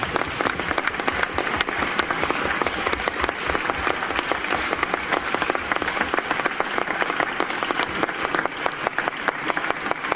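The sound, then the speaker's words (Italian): A large audience applauds at a public talk with dense, steady, loud clapping that continues unbroken throughout. “ma l'applauso va fatto a tutti”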